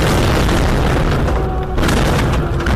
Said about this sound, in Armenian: 1 տարի առաջ այսօրը Ստեփան Ակերտում լսվեցին առաջին պայթյունների ձայները։